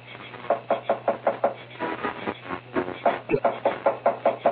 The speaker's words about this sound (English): Go ahead, start pounding on the door. It'll be on your own responsibility.